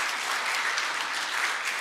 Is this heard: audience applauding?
yes

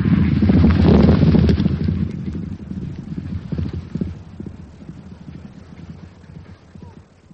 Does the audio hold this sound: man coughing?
no

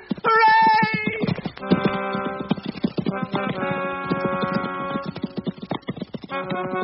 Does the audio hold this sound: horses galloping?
yes

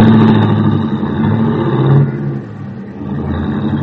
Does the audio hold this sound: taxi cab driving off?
yes

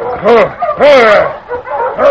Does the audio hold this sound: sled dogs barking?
yes

